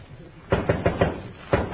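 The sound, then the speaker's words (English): Knocking on a door: a quick run of four sharp raps, then a short pause and two more, over a faint low background. “Dick, who's that knocking?”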